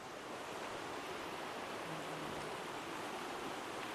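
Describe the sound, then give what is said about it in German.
Steady rushing of a river flowing, a dense, even hiss of moving water that holds at one level throughout with no voices or distinct splashes. “Ja, ja, du bist am Fluss. Ja. Du bist am Fluss.”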